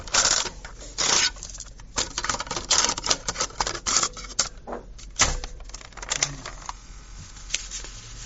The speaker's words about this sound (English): Let me just turn this tape over.